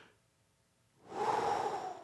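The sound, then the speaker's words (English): A deep breath taken to calm anxiety: a second of quiet, then one long, steady rush of air that swells and holds for about a second, fairly loud, with no talking. “I'm very big on big, deep spiritual breaths.”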